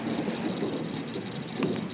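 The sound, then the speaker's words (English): Steady rain falls on a porch in Louisiana, making a soft, continuous hiss with no breaks. “Come up on the porch. We're just sitting here watching it rain and talking about Louisiana.”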